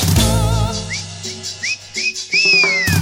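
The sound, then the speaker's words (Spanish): Whistling along to cumbia music: a few short, rising whistled chirps that build into a longer gliding whistle, heard over the music's steady beat. “Si vos te cantás, si vos sos cumbiero, tenés que silbar.”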